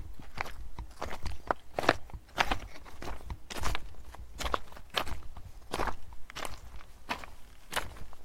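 Footsteps crunch across rough, uneven ground outdoors, a steady walking rhythm of many crisp, gritty steps at a brisk, even pace, with no voices.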